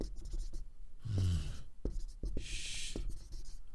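Writing on paper: faint, scratchy pen strokes in short, irregular bursts, heard alone.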